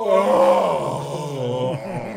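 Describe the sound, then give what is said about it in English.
A voice imitates a guttural, moaning sigh of pleasure from a creature called the Cibriex as the pressure of its chains is released: one loud, sustained, low groan lasting about two seconds, with a wavering, throaty pitch and no other talk. “it almost sighs like a guttural moaning like pleasure sigh”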